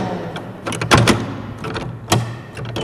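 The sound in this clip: Metallic clunks of an old door lock being closed with a large, roughly 30-centimetre key: a few sharp clanks and rattles stand out over a low, scraping rustle.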